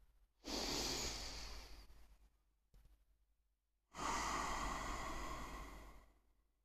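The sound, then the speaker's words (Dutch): One slow, deep breath: a long airy inhale, a short pause, then a long, steady exhale, soft and alone with no talk. “Adem 1 keer diep in en uit.”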